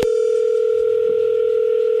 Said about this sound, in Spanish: Bueno, pues vamos a llamarle, ¿no? O sea, y a ver qué pasa.